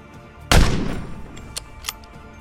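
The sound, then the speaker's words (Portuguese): A single gunshot fired in a video game: one loud, sharp crack with a booming tail that fades over about half a second, followed by two faint brief clicks. “Veja se tem mais alguém precisando de ajuda. Ai. Dou o tiro.”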